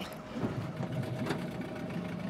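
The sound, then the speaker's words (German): An old 8-horsepower engine, nearly 40 years old, on a fishing boat getting under way, producing a steady, rough, fairly faint mechanical drone with no break. “Mit 8 PS geht es langsam los. Fast 40 Jahre alt sind die Motoren.”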